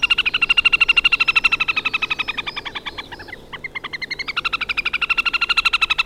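A small lake bird that nests in broad reed belts gives a loud, rapid trilling call. The even, high pulses run steadily, falter and break up briefly midway, then resume at full strength.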